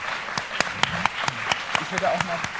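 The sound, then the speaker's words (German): Scattered claps from a small group thanking volunteers for washing up: several sharp, separate hand claps that are irregularly spaced, with people talking underneath. “Können wir bitte einen Applaus haben als Dankeschön dafür, dass ihr so viel gespült habt?”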